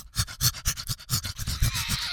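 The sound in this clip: A human voice imitates an overheated pug panting on a hot summer day: many quick, breathy huffs in a fast, even rhythm, fairly loud and alone, ending in a steadier airy wheeze.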